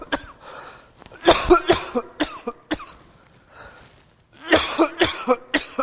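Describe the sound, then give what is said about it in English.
Harsh coughing and throat clearing from someone who got a small piece of communion bread down the wrong pipe; bursts come in a few clusters of sharp, repeated coughs separated by short quiet gaps. “Excuse me, I had a small piece of communion bread go down the wrong pipe,”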